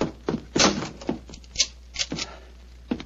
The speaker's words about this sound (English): Follow me. Lock the door behind you.